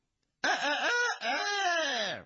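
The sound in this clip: A voice imitates a rooster crowing: two loud, drawn-out sung phrases, the first wavering and the second a long held note that slowly falls away, alone against silence.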